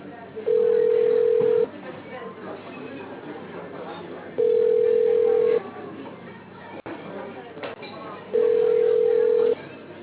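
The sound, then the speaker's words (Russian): Telephone ringback tone plays while a call is being dialed: three long, steady beeps, evenly spaced a few seconds apart, over the narrow, hissy sound of a phone line. “Продолжаем дозваниваться. Оставайтесь на линии.”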